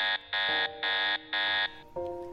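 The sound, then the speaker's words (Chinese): An electronic system restart warning alarm sounds: four loud, harsh, high buzzing pulses alternating with a lower tone, then a steady lower buzzing tone to the end. “这已经不知道是第几次系统发出重新启动的声音了。”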